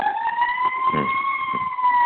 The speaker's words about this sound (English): Seems like truth always calls for sirens.